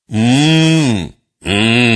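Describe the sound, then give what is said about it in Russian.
Two wordless closed-mouth hums from a person answering a question with a mooing sound instead of words. The first is longer with a gentle arch in pitch, and the second is shorter and follows a brief pause. Both are loud and alone. “Некоторые люди на тот или иной вопрос отвечают мычанием.”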